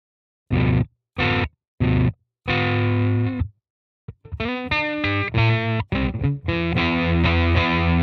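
Electric guitar through a Fuzz Face fuzz pedal into a clean amp, giving only mild distortion: three short stabbed chords, a held chord, then a run of ringing notes and sustained chords, loud and with no talk.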